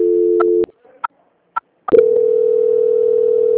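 Telephone tones sound during a call transfer. A steady tone cuts off with a click, a few short, sharp beeps follow with silence between them, and then a new continuous steady tone holds to the end.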